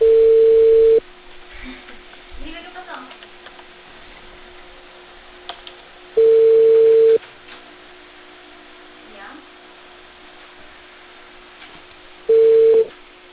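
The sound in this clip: An outgoing telephone call rings back with three steady, single-pitched tones about a second long, spaced by several-second gaps of faint line noise and soft sounds.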